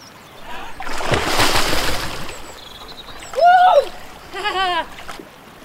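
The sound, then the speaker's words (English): A person takes a running jump into cold water, making a broad, loud splash. Two short, pitched vocal cries or gasps follow soon after. “You are hot from the walk and the water looks inviting, so you strip off and take a running jump.”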